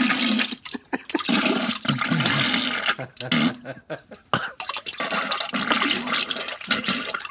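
Diarrhea sound effect: loud, wet sputtering bursts broken by short gaps, with a toilet flush, heard alone without talk.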